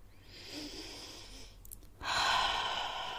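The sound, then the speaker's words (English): A deep breath: a long, airy inhale, then a louder, fuller exhale that rushes out and holds for the last second. The breathing is alone with no talking. “Taking a deep breath to really, really get into the zone of this podcast.”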